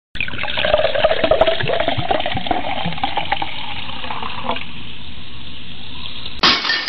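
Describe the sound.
Cola pours into a glass as a loud, steady gushing and fizzing stream that runs for several seconds and thins toward the end. A brief abrupt noise follows.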